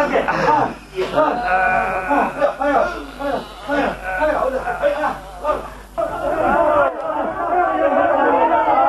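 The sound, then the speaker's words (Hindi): Crowd shouting slogans, many voices overlapping in a loud, continuous clamor with repeated swells and dips and no single voice standing out. “अरे अब ये नारे क्यों लगने लगे साहब?”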